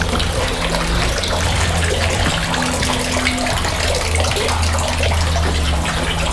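Water runs at a village washhouse in a steady, unbroken gushing flow that holds an even loudness throughout, with a low hum beneath it and no voices.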